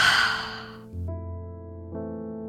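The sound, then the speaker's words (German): A deep breath, heard as a breathy rush of air that fades out within the first second, followed by soft sustained musical tones. “Und ein letztes Mal tief Luft einatmen und wieder ausatmen.”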